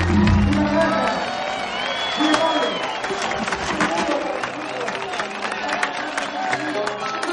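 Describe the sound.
An audience applauds and cheers as an orchestra finishes playing. The clapping is dense and moderately loud, with whoops and voices rising above it, and stays fairly even throughout.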